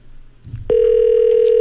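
A telephone ringback tone sounds while a call is being placed. A brief low rumble comes first, then a single steady tone starts abruptly and holds at an even, loud level to the end.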